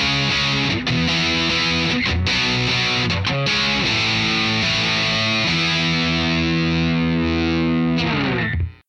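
Electric guitar plays through a Dirty Little Secret overdrive pedal, heavily distorted and loud: thick sustained chords with a few quick choppy breaks and changes, ringing out steadily before stopping abruptly.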